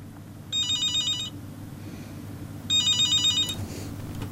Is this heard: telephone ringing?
yes